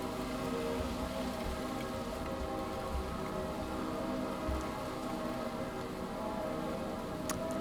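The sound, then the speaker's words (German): Steady rain falling while the sun shines, a dense, even patter and hiss that carries on unbroken at a low level throughout, with no voices. “Es regnet und scheint die Sonne zugleich.”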